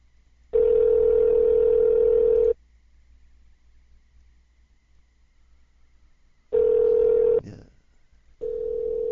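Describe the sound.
Ringing of an outgoing telephone call: a steady buzzing ring tone lasts about two seconds, then a long silence, then a second ring, and a third ring begins at the end.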